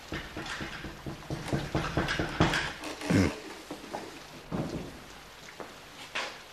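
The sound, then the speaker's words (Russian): Knocking on a door on a dark night: many sharp, irregular raps in quick runs, some louder than others, with a duller thump midway. “стучит кто-то.”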